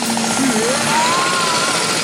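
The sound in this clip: Loud drilling from a neighbouring renovation crew at work before dawn, a continuous grinding roar with a whining tone that wavers and then climbs higher.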